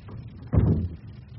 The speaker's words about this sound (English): Close the door.